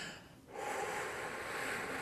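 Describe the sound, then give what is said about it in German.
A long, slow exhale used as a breathing exercise against shortness of breath and stress, a steady airy rush that swells after a brief quieter breath and holds evenly until the end. “Und was ich dann zum Beispiel mache, ist, ich atme dann ganz lange aus.”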